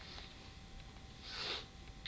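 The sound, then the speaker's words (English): A single brief sniff from a runny nose, a faint breathy burst of air drawn in through the nostrils midway through an otherwise quiet stretch. “What, your cough or your run? No, my runny nose.”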